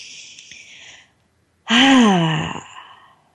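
A deep breath taken in and released during a guided breathing exercise: a soft, airy inhale, a short silence, then a louder, voiced, sighing exhale that fades out at the end.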